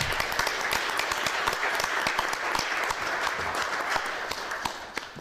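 An audience at a book presentation breaks into steady applause: many hands clapping densely and evenly throughout, fading slightly toward the end. No voices are heard.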